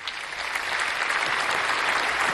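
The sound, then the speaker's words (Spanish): Applause from many hands: steady, dense clapping that swells slightly and stays even to the end. “No, pero esto se merece un aplauso. Esto se merece un aplauso. ¿Dónde están los aplausos aquí? Vamos a ver. Los aplausos, ¿dónde están?”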